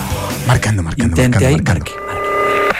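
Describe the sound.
Telephone keypad tones as a number is dialed to place a call, a steady electronic tone arriving near the end right after a stretch of lively talk.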